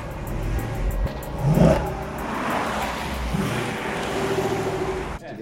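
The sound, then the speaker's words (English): Engine rumble of a Viper sports car driving into a car park, a steady low drone that swells briefly near the start and then cuts off abruptly just before the end. “drives his Viper into a car park.”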